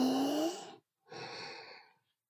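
Deep breathing during a guided relaxation exercise, heard as two long, soft breaths separated by a short pause. The first carries a faint whistling edge and the second is a gentler, airy rush, with no talking.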